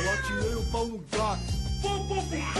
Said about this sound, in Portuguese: Gato de elite, gato siamês, odeio gato de burguês de madame.